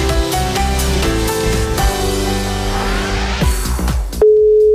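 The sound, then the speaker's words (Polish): Music with a steady beat plays, then it cuts off and a loud, steady telephone call tone begins as a call is placed, holding for the final half second. “Żeby do niego zadzwonić z gratulacjami? Dajcie mi chwilę, ogarniemy to.”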